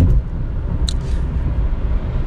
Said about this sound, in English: as you can hear the rumble of the car outside. This is me driving to work.